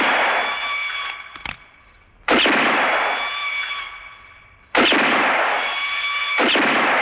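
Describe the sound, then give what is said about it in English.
Pistol shots from a Western film scene, an unusual-sounding pistol fired continuously at a hat tossed into the air. A few sharp, loud cracks, each followed by a long, bright, ringing tail that slowly fades. “Leone and his sound editors have given Mortimer a very unique sounding pistol. As the hat flies in the air, Mortimer juggles the hat in the air with continuous shots as it gets higher and farther away.”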